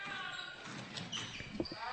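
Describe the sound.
A basketball bounces a few times on the court during a women's game while a commentator talks over it.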